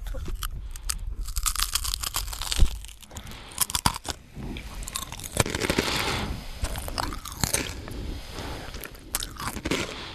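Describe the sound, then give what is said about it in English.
Mukbang-style eating, with continuous loud chewing, biting and crunching of food filling the whole stretch in a dense, uneven stream of crisp snaps and wet mastication. “Mukbang, mukbang.”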